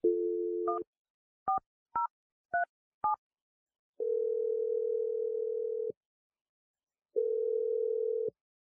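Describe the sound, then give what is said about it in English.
A telephone dials a number: a quiet dial tone, five quick touch-tone beeps, then two long ringing tones separated by a pause, with no voices. “I'm dialing your number right now.”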